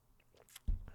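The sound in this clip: Someone chews a burger, faint soft mouth sounds, then one sharper crunchy bite followed by moist chewing, with no talking.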